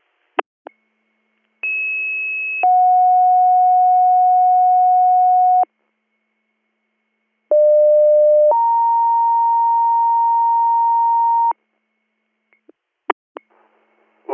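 Two-tone emergency dispatch paging tones calling EMS crews to a one-car motor vehicle accident. Two loud, pure sequences each hold a short first tone, then a longer steady second tone, with brief clicks before, between and after them.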